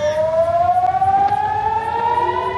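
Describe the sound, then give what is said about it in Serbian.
An air raid siren warns of a rocket attack at the port of Haifa in northern Israel, a loud sustained wailing tone that climbs slowly in pitch throughout, heard alone. “Zvuk sirene za raketni napad odjeknuo je u luci Haifa i nekoliko područja na sjeveru Izraela”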